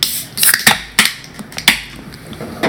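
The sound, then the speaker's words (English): Beers being opened: a few sharp, separate pops and snaps with brief fizzing hiss, spaced irregularly and fairly quiet, with no talk over them. “Let's all open up our beers, guys.”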